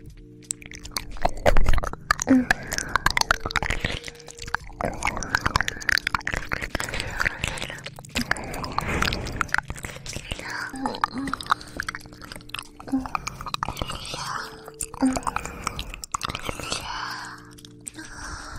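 Someone chews a sausage with steady, moist smacking and soft crunching bites that go on throughout, fairly quiet and with no talking.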